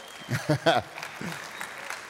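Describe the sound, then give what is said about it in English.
Applause from a church audience: a voice speaks briefly at the start, then a dense patter of clapping continues beneath and after it. “Satan is strong, but Jesus is stronger. Amen? You can clap for that one.”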